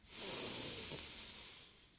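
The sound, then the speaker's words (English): A deep breath drawn in, a single long airy hiss that swells quickly and then slowly fades over about two seconds, with no talk. “just take one deep breath in”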